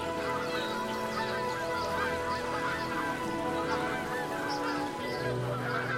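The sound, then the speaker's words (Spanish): Geese honking as they land, thousands of geese and other waterfowl arriving at an autumn refuge, a dense, continuous chorus of overlapping nasal honks from a large flock. “Los gansos y otras anátidas aterrizan por miles en busca de abrigo, seguridad y comida.”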